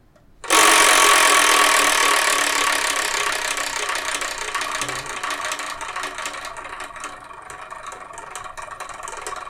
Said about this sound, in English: And what I'm going to do is I'm going to spin it. Whatever number it lands on, that's a review in the next episode, episode 358.